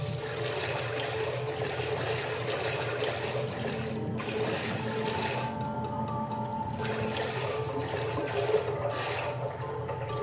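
Continuous sloshing, splashing water as a video game character wades in, a steady even wash of liquid noise throughout with no voices.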